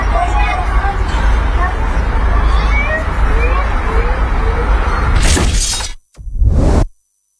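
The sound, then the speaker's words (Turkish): A car crash recorded on a vehicle's dashcam: steady road rumble, then a sudden loud impact with shattering glass. After a brief silence comes a second short burst of crunching noise. “Kaza anı ise bir sürücünün araç kamerasına saniye saniye yansıdı.”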